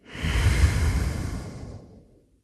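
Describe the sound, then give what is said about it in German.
A slow, deep breath: a soft, airy rush that swells and then fades over about two seconds, heard alone and quiet. “Atme tief ein und aus.”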